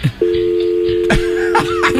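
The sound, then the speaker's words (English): Telephone dial tone on a radio call-in line after the caller hung up: a steady, continuous mid-pitched hum that starts just after the opening and holds unbroken to the end. “Caller hung up.”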